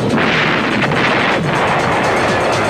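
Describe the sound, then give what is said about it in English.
Bombs exploding in a continuous, loud, roaring rumble, with heavier bursts rising now and then out of the dense blast noise. “Bombs away!”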